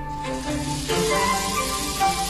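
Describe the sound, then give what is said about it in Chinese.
Chili paste sizzles and fries in a wok as the peppers darken. A dense, steady crackling hiss keeps an even, moderately loud level throughout, with no voices. “等到锅中辣椒颜色变深、辣味浓浓涌起时，即可出锅。”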